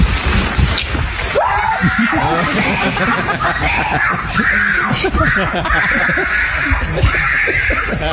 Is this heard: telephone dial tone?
no